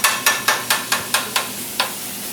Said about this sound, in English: I'm just chopping the steak on the grill right now.